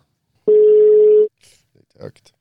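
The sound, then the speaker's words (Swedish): A single steady ringback tone sounds as a telephone call is placed to a fight academy. The tone is loud and lasts under a second, followed by a few faint, brief sounds. “Så varför inte ringa den självaste Keivan från Halmstad Fight Academy? Ja men det gör vi tycker vi också.”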